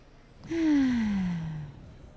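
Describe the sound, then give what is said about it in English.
A deep breath let out as one voiced sigh during a guided relaxation exercise. It falls steadily in pitch over about a second and is fairly loud, heard alone. “And just take one more deep breath with that.”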